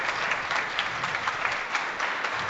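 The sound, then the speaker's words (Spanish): Audience applause at a live performance, a dense, steady wash of many hands clapping at once that holds a fairly even loudness throughout, with no clear voices standing out. “aplausos, cómo va incrementándose ese volumen de aplausos”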